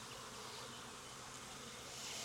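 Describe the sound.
Honeybees buzzing in an open, healthy ten-frame hive full of brood: a faint, continuous droning hum with no breaks or voices.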